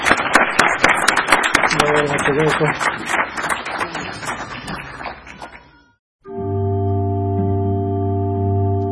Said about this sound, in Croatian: Još jedan aplauz, Bogu nagradu.